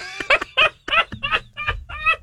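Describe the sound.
Chicken clucking as a sound effect: a rapid series of short, loud, throaty clucks in an uneven rhythm, each burst clipped and nasal, with no other sound between them.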